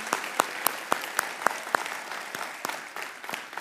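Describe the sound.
An audience applauding in welcome at a service, with many hands clapping steadily and a few sharper, regularly spaced claps standing out at first, then fading slightly.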